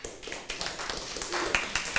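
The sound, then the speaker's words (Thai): Children clapping their hands for a classmate during a lesson, a brief, fairly faint burst of many quick, scattered claps. “เก่งมากปรบมือให้เพื่อนค่ะ”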